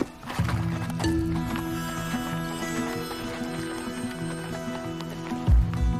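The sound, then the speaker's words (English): Horse hooves clip-clop as riders head out behind a guide toward a canyon, an uneven run of muffled hoof beats under a steady tonal background, with a louder thump near the end. “The guide and his horse head out, with the others close behind.”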